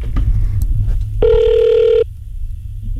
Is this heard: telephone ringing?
yes